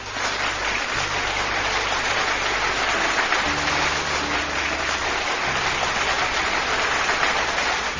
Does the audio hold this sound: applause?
yes